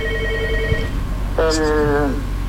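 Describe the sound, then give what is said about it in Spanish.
A telephone rings in two electronic tonal bursts, the second higher-pitched and brighter, over a steady low background murmur. “¿Tiene una llamada ahí, mira?”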